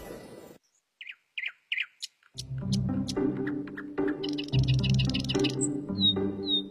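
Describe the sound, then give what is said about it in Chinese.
A magpie calls, first with a few short, high chirps separated by silence, then a louder, denser stretch of calling. “我叫喜鹊，自古以来深受人们喜爱的鸟类。”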